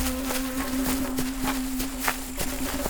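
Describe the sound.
Brisk footsteps of people hurrying form a quick, regular patter of light steps over a steady low hum.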